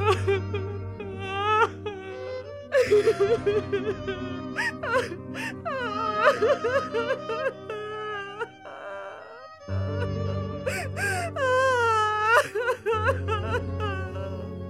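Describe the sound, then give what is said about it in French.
A woman weeps and sobs in wavering, high, drawn-out wailing cries that come in shaky bursts, rising and falling, with a brief break partway before the crying resumes. “Elle se tient derrière Jésus et se met à pleurer.”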